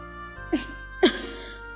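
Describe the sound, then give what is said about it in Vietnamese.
A person coughs hard in a few sharp, brief bursts spaced apart over a steady, low tonal hum. “càng ho dữ hơn, vừa ho vừa cố nói”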